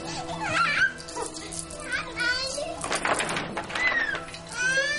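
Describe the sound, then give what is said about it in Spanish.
Several children play in a doctor's waiting room: high-pitched voices, squeals and chatter rise and overlap in lively, continuous bursts. “En la sala de espera hay una mujer con un bebé en brazos. Al lado, varios niños están jugando.”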